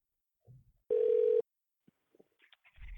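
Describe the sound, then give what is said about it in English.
A telephone ringing tone comes through a call line as one steady buzzing burst of about half a second, set among faint, scattered small noises. “Well, we're getting some fucking ringing now.”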